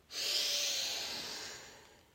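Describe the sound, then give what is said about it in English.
A long, deep inhale taken just before a breath hold in a guided breathwork session. It is a loud, steady, airy rush that starts suddenly and slowly fades over about two seconds. “Preparing for the last breath hold. Take in a deep breath in.”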